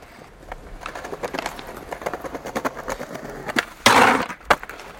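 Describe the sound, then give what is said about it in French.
A skateboard's rear truck grinds along the metal edge of a bench. Light rolling clatter and clicks from the board lead into one short, loud scraping grind, followed by a sharp knock. “l'essieu arrière de la planche, va toucher le banc et va glisser et ça va faire un... Donc c'est un grind.”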